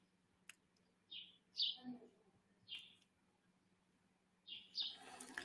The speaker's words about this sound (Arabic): وإذا صوت العصافير مزعجكم نطلب تسكير الشباك كمان